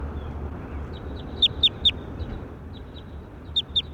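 Bird calls: a quick group of three sharp, high chirps, then two more near the end, with fainter calls in between over a steady low rumble.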